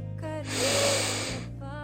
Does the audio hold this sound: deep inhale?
yes

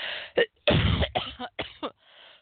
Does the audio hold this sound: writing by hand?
no

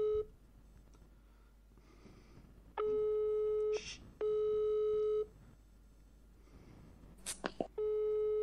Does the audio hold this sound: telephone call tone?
yes

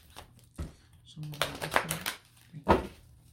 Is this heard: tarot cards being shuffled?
yes

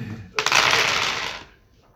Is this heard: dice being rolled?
yes

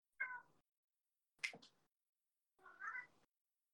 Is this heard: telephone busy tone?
no

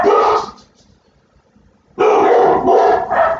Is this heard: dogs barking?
yes

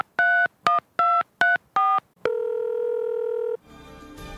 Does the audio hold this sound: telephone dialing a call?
yes

